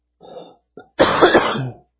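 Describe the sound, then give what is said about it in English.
Throat clearing from a tickle in the throat: a short rasping burst, a brief catch, then a longer, louder gravelly clearing, with no talk. “I knew I shouldn't raise my voice because then I would get a tickle.”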